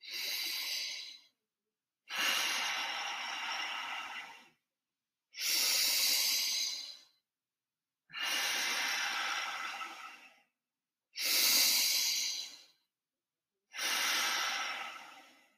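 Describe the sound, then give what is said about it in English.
Slow Ujjayi yoga breathing: six long, hissing breaths, each lasting a couple of seconds and separated by short silent pauses, steady and fairly loud with no talking. “And that's my best Ujjayi breath.”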